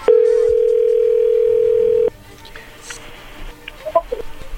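A telephone dial tone as a call is being dialed: a loud, steady single-pitched tone lasts about two seconds and then cuts off, followed by faint clicks and a few short, soft beeps.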